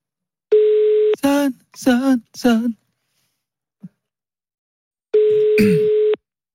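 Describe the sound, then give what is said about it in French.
A telephone call ringing out, with two long, steady ringback tones separated by a few short voiced sounds and a quiet gap. “Est-ce que ça sonne chez Yanis?”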